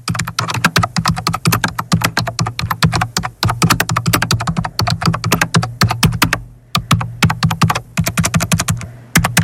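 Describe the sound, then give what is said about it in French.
Fast typing on a computer keyboard produces many sharp, crisp key clicks in uneven rapid bursts, broken by a few short pauses. The clicks are loud and heard alone. “le 21e siècle, bon sang, c'est un clavier d'ordinateur.”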